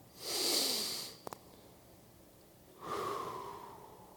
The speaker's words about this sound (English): Breathe in and breathe out.